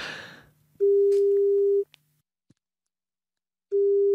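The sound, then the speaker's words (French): Ringback tone of an outgoing telephone call: two steady mid-pitched tones separated by a pause of about two seconds, with a couple of faint clicks in the gap. “même si on le réveille à cette heure-ci, on va tenter de l'appeler Jérôme de Verdière.”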